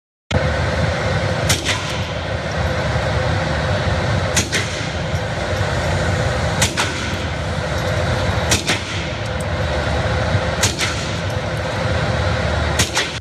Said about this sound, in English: take a look at this video of him shooting a handgun.